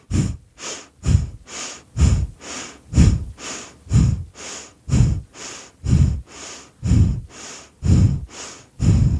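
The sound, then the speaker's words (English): Deep breathing with slow, full inhales and exhales in a steady, even rhythm. Many loud, airy breath cycles repeat alone, with no talk over them. “inhale, exhale, inhale,”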